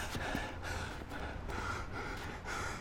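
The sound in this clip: Heavy panting of a man who has just been punching a heavy boxing bag on a rooftop: rough, rhythmic gasping breaths in and out, steady and fairly loud, with no talk.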